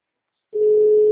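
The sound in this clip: A telephone dial tone sounds while a call is being placed. A steady single-pitch hum starts abruptly after half a second of silence and holds, loud and unbroken, to the end.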